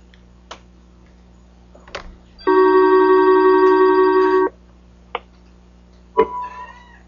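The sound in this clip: A telephone rings once as a conference call dials back in: a steady electronic tone lasting about two seconds, with a few soft clicks before and after and no talk.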